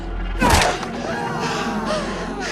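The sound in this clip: A dull thud as someone is struck with a gun: one short, heavy impact, followed by a quiet, steady background.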